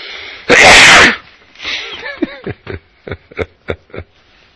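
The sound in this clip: A single loud, explosive sneeze bursts out, followed by a string of short, breathy chuckles and snickers in quick succession.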